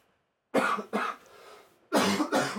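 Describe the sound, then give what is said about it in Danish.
Coughing from one person: four dry, harsh coughs in two pairs, with a quiet gap of about a second between the pairs. “Den hosten.”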